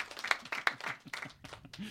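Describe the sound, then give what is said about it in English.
A faint applause sound effect plays after a quiz answer: scattered, uneven claps that thin out over about two seconds. “Not expecting too much more of that applause.”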